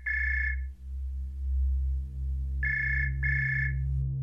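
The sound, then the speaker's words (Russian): A telephone rings with an electronic, high-pitched trill in three bursts: one short ring, a pause of about two seconds, then two rings close together, all over a steady low hum. “Внезапно раздался звонок.”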